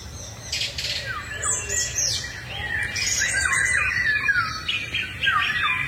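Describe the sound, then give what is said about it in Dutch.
A song thrush sings from a branch in a garden in the evening, a string of clear, high, varied whistled phrases repeated in quick succession over a faint low background hum. “Maar de zanglijster bij Liz Stolp in de tuin lijkt zich daar weinig van aan te trekken. Die zingt nog steeds iedere avond. Vanaf dezelfde tak. Het hoogste lied.”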